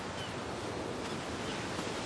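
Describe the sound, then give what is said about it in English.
Waves lap onto a white-sand shore at sunset, a steady, even wash of surf noise with no distinct breaks or peaks. “Grinning, Maya follows him, and our view lingers on the waves lapping onto the shore”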